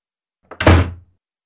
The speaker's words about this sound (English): Slam.